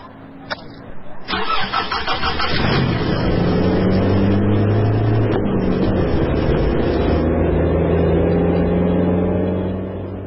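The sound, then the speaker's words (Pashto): A car engine starts with a few sharp clicks, then catches and settles into a steady, loud mid-pitched running hum that holds to the end. “درځه لکه موټر روان کړه.”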